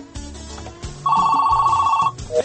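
A telephone rings with an incoming call to a radio show: one warbling electronic ring lasting about a second, fairly loud and alone, followed by a brief higher tone.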